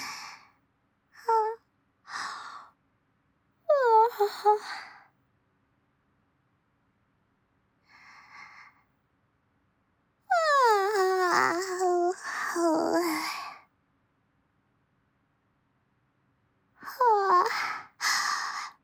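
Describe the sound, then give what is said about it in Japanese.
A man gives big, voiced yawns, long drawn-out calls that glide downward in pitch, with shorter breathy vocal sounds and pauses of silence between them. “もう兄さん大きくあくび、”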